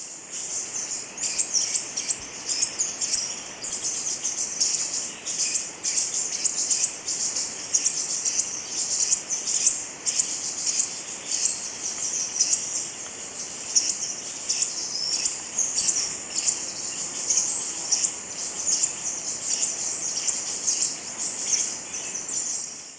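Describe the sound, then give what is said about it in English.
A rufous-crested tanager sings a high-pitched, rapid chirping song that repeats steadily and evenly throughout, with an insect-like buzz running alongside it. “Rufous Crested Tanager, 1.”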